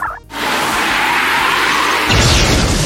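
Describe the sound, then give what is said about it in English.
A loud, sustained crash of noise from a video game attack hit effect in a turn-based monster battle, a wing slash move, starting after a brief dip and swelling slightly near the end. “Choose Wing Slash. Collivert has dealt 33. The attack miss.”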